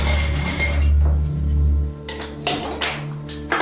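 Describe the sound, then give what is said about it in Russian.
Glass clinks as a soda bottle is lifted out of a fridge: a few light, bright taps and knocks of glass, fairly faint, with no voices. “достал из холодильника бутылку Байкала”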